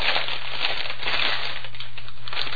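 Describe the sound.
A hand-painted paper bag is unwrapped with continuous crinkling and rustling that stays fairly even in loudness throughout.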